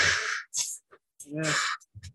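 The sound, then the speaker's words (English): A person imitates heavy, panicked breathing with a few sharp, breathy gasps and exhales in quick, uneven succession and no background sound. “I would be breathing like he was.”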